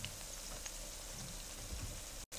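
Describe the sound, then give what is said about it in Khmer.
Fish cakes sizzle as they fry in a pan, making a steady crackling hiss that runs almost unbroken and drops out briefly just before the end. “ចាយើងនឹងរងចាំរហូតដល់ប្រហិតរបស់យើងឡើងពណ៌ដូចថាពណ៌មាសហើយវាឆ្អិនមើលទៅវាឆ្អិននឹងយើងត្រឡប់វាមកម្ខាងទៀត”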